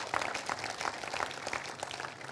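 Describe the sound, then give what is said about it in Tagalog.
An audience applauds in church during a sermon, giving a dense, steady patter of many hands clapping for a couple of seconds at moderate loudness. “Palakpakan po natin si Lord.”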